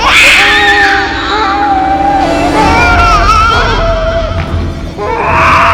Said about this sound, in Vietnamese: Đứa trẻ đó dường như cũng phát hiện ra cô đang tìm nó. Nó liền khóc òa lên.